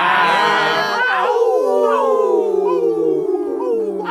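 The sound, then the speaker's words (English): Wolf howling voiced by several overlapping voices: long wavering tones that slide gradually downward in pitch, loud and continuous throughout. “Ooh, that's some good howling. Good howling.”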